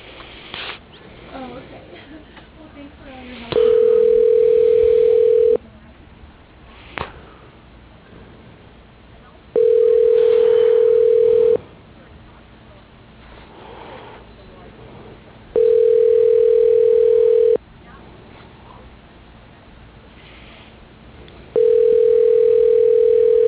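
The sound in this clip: A telephone tone plays while a call is being transferred: four steady, mid-pitched beeps, each about two seconds long and spaced several seconds apart, over a thin phone line with faint noise in the gaps.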